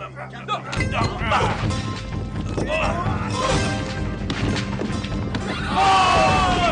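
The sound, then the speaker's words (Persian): Stones hurled from a mountainside crash and thud down, a rapid series of loud smashes and impacts filling the stretch, with voices heard among the clatter. “با تمام قوا سنگ های این کوه را به سمت آنان پرتاب کنیم.”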